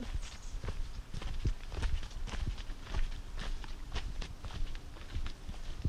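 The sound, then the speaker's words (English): Footsteps hurrying down a steep footpath in Stanley Park: a quick, uneven run of many crunching steps and scuffs, fairly loud and steady throughout, with no talk. “And it's going to get steeper. Running down this without tumbling? Very carefully.”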